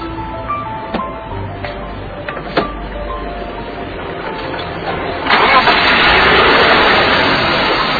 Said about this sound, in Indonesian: Kalau mesin tiap hari saya rawat, Bos. Bener, Bos. Bagus kan suaranya bersih, kan, Bos?